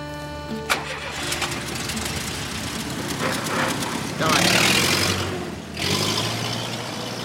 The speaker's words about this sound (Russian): Садится в машину, уезжает.